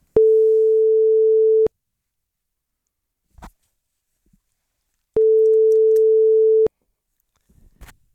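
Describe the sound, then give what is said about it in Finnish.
Telephone ringback tone after dialling a company's number: two long, steady mid-pitched tones, each about one and a half seconds, separated by several seconds of silence with faint clicks. “Ja nyt sitten Elisan numero on tänne laitettu ja katsotaan, miten Elisa vastaa vai vastaako ollenkaan.”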